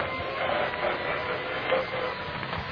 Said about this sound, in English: Someone coming down the hall, Chief. We better start the elevator.